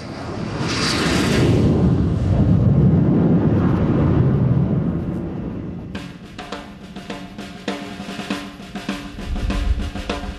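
Jet aircraft engine roaring on approach to an aircraft carrier deck, a loud broad roar that swells and holds for about five seconds, then gives way to a choppier, clattering rumble.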